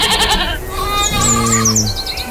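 Goat bleating during milking on a farm, with a kid nearby: one wavering, nasal bleat stands out mid-clip, while thin, high bird chirps and tweets repeat above it throughout.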